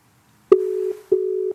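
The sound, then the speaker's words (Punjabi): Ringback tone of a phone call going unanswered: two steady, mid-pitched electronic rings separated by a short pause, with no voices. “ਆਹਾਂ ਚੱਕਿਆ ਨਹੀਂ ਮੁੰਡੇ ਨੇ phone ਦੁਬਾਰਾ ਕਰੀਏ”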